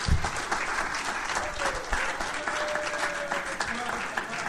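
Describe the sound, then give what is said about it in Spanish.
An audience applauds during a youth church service, with steady, dense clapping throughout and a voice speaking over it. “Dele un aplauso”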